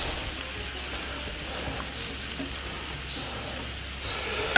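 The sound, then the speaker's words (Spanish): Vegetables frying in a pan on lowered heat as the first step of a rice dish, giving a steady, dense sizzle that stays even and unbroken throughout. “Y ponemos la verdurita. Y vamos a cocinar la verdurita.”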